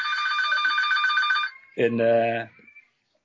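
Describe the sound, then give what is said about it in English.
A mobile phone ringtone going off in the middle of a talk, a repeating bright electronic tone pattern that runs steadily and loud for about a second and a half, then cuts off and is followed by a brief voice. “I'm very sorry about this. That was my phone, I apologize.”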